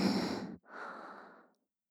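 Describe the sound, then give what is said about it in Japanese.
A deep breath drawn in and then let out, two steady airy rushes of air split by a brief pause, the exhale softer and trailing off into silence. “ラストもう一回吸って”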